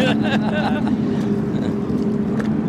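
Powerboats roar in a drag race from a standstill on water, one boat with twice the horsepower of the other, making a loud, steady engine drone with a sustained tonal hum throughout.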